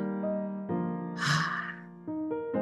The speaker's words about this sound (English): Taking a deep breath in here.